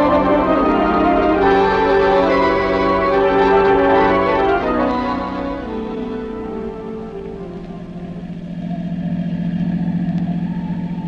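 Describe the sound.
A car drives along a road in heavy rain, making a steady, dense hum with a rain-like hiss. It is loudest at first, then eases into a lower drone and swells again near the end.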